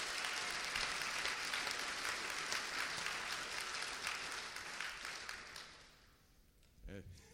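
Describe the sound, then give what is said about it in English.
Audience applause, a dense, even roar of many hands clapping that holds for about five seconds, then thins and fades out before a voice speaks. “Well, we're just applauding.”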